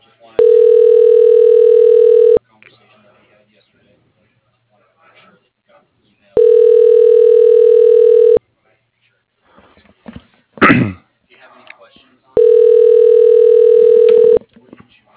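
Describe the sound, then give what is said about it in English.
Telephone ringing tone while a call is transferred: three loud, steady, long tones of about two seconds each, evenly spaced with quiet gaps and a few faint rustling sounds between them. “Your call is being transferred. Please hold.”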